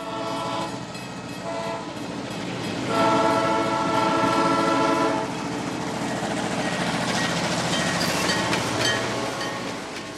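Train sound effect: a steady rolling rumble with horn-like tonal blasts, growing louder in the middle and staying loud to the end, with no voices.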